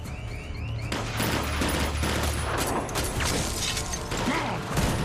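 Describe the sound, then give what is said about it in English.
Gunfire as an officer shoots at a window during a bank robbery shootout: dense, sustained crackling bursts that run unbroken through the whole stretch, with no voices. “An officer shoots a window.”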